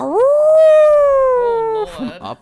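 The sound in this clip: A human voice imitates a wolf howling up a tunnel as a challenge: one long, loud howl that swoops up, holds, then slowly sinks, ending with a brief breathy, growly tail.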